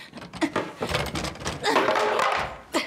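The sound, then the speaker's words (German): A chair is pushed back, with scattered knocks and thumps, a louder rough stretch of scraping in the middle, and one more sharp thump at the end. “Jetzt schieb den Stuhl zurück.”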